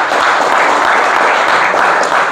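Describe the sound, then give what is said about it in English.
Applause from a church audience thanking a family member, a dense and steady patter of clapping that holds evenly for the whole stretch and tails off slightly at the end, with no voices over it. “Give Uncle Mark a hand, would you?”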